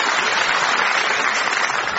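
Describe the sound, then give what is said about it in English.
A round of audience applause on a comedy panel show, a steady wash of clapping at constant loudness with no clear voices over it. “Turn around, give a round of applause.”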